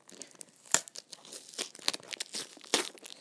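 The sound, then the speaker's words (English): Packaging tape is pulled and torn off a cardboard box in a quiet, irregular run of crinkling, ripping rasps broken by a few sharper tearing snaps. “that is the certified way of removing packaging tape. Oh no, I found a bit that I can just pull on and see.”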